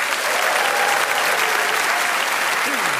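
Studio audience applause welcoming four comedians onto a comedy panel show, a loud, dense and even roar of many hands clapping, sustained throughout.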